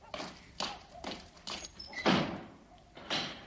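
A door slamming shut as soldiers throw a man down the entrance stairs in a 1962 desert adventure film, heard as a series of faint, dull thuds and knocks with short gaps between them.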